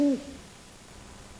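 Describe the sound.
A single short, low tonal owl hoot opens the moment, then gives way to near silence with only a faint hiss for the rest.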